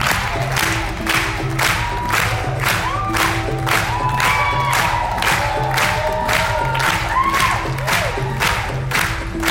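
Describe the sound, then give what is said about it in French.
A film-screening audience claps in a steady, even rhythm to support a voguing dancer from Port Authority. Cheers, whoops and shouts rise over the beat throughout. “Là, on clappe en rythme pour soutenir le danseur de Port Authority, film dans le monde qui se passe dans le monde du voguing, présenté à un certain regard.”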